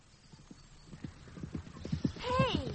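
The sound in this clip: Hooves of a trotting pony clip-clop in a steady, quick rhythm of many light, faint beats, with a short whinny rising over them near the end.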